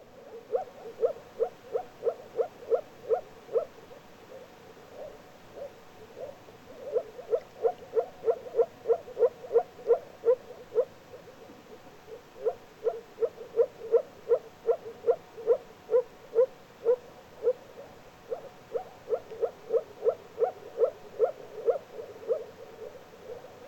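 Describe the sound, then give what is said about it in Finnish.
A moor frog calls in a series of short, rapid bubbling pulses. The pulses come in several repeated bursts with brief pauses between them, and they stay steady and clear over a quiet background. “Viita sammakko. Ääni jatkuvaa pulputusta.”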